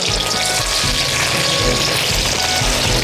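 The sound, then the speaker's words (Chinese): Ginger slices frying in hot oil make a loud, continuous crackling sizzle that stays steady and dense from start to finish, with no voices. “成金黄色的，下两个这个姜片让它爆香。”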